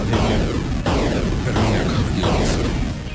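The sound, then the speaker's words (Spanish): Grenade explosions in a video game: a rapid series of loud, booming blasts follow each other with hardly a pause, each burst rolling into the next in a thick wall of noise. “Vamos a tirarte una granada. Toma todas las granadas que tengo.”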